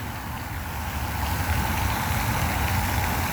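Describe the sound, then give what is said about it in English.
An outdoor water fountain runs with its pump going, producing a constant, dense rush of falling, splashing water over a low steady rumble, unchanging throughout. “I'm over at this water fountain. And you think, well, that water fountain's cool. Yeah, but there's a pump over here.”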